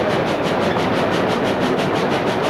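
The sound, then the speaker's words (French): A train starting to pull out of a station gives a steady rumbling clatter with a fast, even rhythmic pulse, loud and constant throughout. “Le train commence à partir.”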